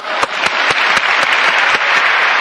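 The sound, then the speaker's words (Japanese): Loud audience applause at a talk, given as encouragement to participants: a thick, even roar of clapping with a few sharper individual claps standing out, continuing throughout without speech. “もう3分の1できてますから、大きな拍手。”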